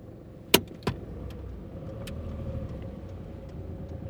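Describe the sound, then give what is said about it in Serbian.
A car drives toward rural villages in Serbia, its steady low road rumble and engine drone running throughout, broken by two sharp clicks early on. “moja koleginica Jovana i ja seli smo u kola i otišli tamo”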